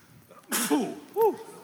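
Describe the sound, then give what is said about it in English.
A human sneeze, one sharp breathy burst followed by short voiced sounds, fairly faint. “I usually sneeze like 3 times.”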